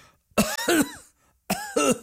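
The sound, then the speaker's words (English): A voice demonstrates throat clearing and coughing in two pairs of short, gruff, voiced bursts separated by a brief silence. Each burst is loud and abrupt. “number one, don't clear your throat. Don't go, instead, cough.”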